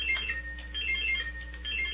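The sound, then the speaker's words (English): Quiz game buzzers sound during a buzzer check before an animal trivia round: steady high electronic tones with repeated beeping pulses that run through the whole two seconds, with no talk. “Let's do a quick buzzer check.”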